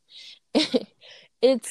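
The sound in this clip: A sneeze, short and sharp, set among brief bursts of voice sounds.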